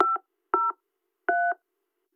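Touch-tone telephone dialing: three separate dual-tone beeps, each lasting about a fifth of a second, with short silent gaps between them. The keypad tones are clean, steady and moderately loud, with no voices.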